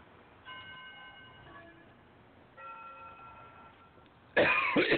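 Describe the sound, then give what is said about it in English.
A single harsh cough from a tickle in the throat bursts out near the end, loud and abrupt after faint, steady ringing tones. “Excuse me. Got a tickle in my throat now.”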